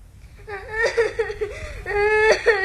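A boy whimpers and sobs after being kicked, in wavering, tearful cries that rise and fall in pitch across several uneven bursts, fairly loud and with no other voices.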